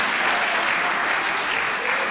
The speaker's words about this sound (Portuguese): As palmas de glória a Deus e o aleluia são bem fortes, bem fortes para Jesus.